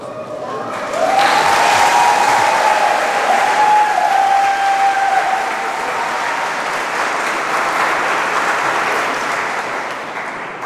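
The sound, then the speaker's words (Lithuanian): Audience applause, a heavy, sustained roar of many clapping hands that swells in after the first second and holds strong for around ten seconds, easing only slightly near the end. “Patiko jėga plojimuose.”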